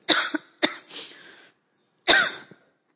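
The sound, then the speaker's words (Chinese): A few sharp coughs and throat-clearing from someone who has choked, in two bursts separated by a short pause, with no speech. “那扫罗他背逆神，好，不好意思，有点呛到。”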